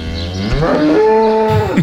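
A cow in a stable gives one loud, long moo, a deep drawn-out bellow that holds its tone before trailing off at the end.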